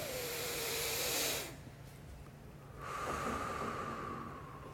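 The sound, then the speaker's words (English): A deep breath drawn in as a loud airy hiss, held in a short quiet pause, then let out slowly in a long, steady exhale. No one speaks. “I'm going to ask you to take it in, hold it, and then let it out slowly.”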